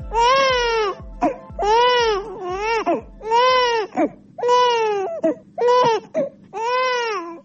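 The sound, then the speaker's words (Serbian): A baby cries in many repeated high, wailing bursts, each rising and falling in pitch, loud and with brief gasping pauses between them. “Ovaj zvuk plača bebe u Bosni i Hercegovini, sve se slabije čuje.”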